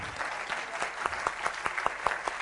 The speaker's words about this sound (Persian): برای آقای مهندس اراقی دست مرتب بزنید